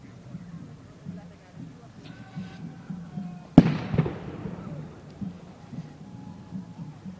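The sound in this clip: Fireworks go off in a single sharp, loud bang about midway, followed by a short crackling, rumbling decay, while people talk quietly before and after.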